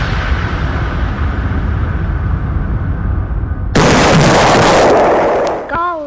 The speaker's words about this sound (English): Let us punish the guilty with these long-range missiles.